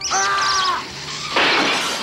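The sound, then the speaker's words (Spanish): A car smashing through the glass window of a paint shop: high squawking chirps come first, then after a short lull a sudden loud burst of shattering, crashing noise. “Choca contra el escaparate de una tienda de pinturas embadurnando el coche de azul y amarillo.”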